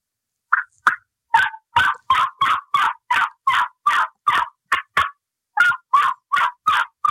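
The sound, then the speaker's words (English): Loud turkey yelps come from a modified cutter mouth call, a long run of short, raspy, evenly paced notes that breaks briefly and then resumes at the same brisk rhythm. “This is my modified cutter. It's in our mouth call line, but I'm going to do some yelp, some regular yelping. I'll give you an example about toning it down and learning the softer stuff. This is the louder yelping.”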